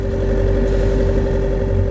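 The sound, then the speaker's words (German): A car engine runs with more throttle applied, towing a line out on the ground. It is a loud, steady mid-low drone with a constant hum that holds even throughout, with no voices over it. “Thea gibt gefühlvoll ein bisschen mehr Gas.”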